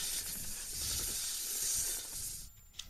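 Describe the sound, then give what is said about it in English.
A snake hisses in a sustained, airy, high-pitched stream that holds steady for a couple of seconds, then fades, ending with a few faint clicks. “I don't know what that sound was. That was a snake.”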